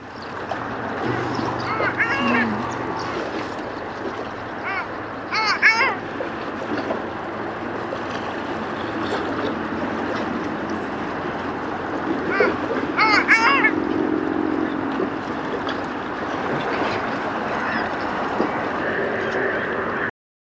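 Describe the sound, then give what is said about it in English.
Long-tailed duck calls: a few nasal, yodel-like bursts rising out of a constant, dense wash of background noise. The clearer calls come in small clusters, and the rest blends into the steady hiss. “Long-tailed duck.”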